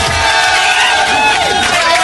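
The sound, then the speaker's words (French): A studio crowd cheers and applauds in a standing ovation, a dense, loud, unbroken roar of clapping and shouting that holds steady from start to finish. “Je crois que là on peut lui faire une standing ovation. Il est là, il réclame des applaudissements.”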